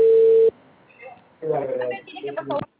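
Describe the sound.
A telephone ringing tone heard while placing a call: one flat, steady low beep lasting about half a second, followed by people talking over the line.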